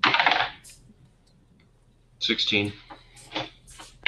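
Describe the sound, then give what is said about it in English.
A twenty-sided die is rolled during a tabletop role-playing game, a short loud clatter at the very start. Quiet follows, then people talk. “Just roll a d20.”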